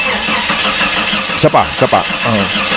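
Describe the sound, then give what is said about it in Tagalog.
A hard-starting car engine cranks without catching, giving a steady mid-pitched churning that runs throughout. Speech breaks in over it in a few short bursts. “Eh, baka sabihan kayo na hard starting, paandar mo nga.”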